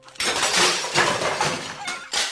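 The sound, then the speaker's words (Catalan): A clay pot holding water wobbles, topples over and shatters onto hot embers: a dense, crunching burst of breaking noise lasting about two seconds, then a second sharp crash near the end. “El tupí va trontollar un petit moment abans de capgirar i de caure.”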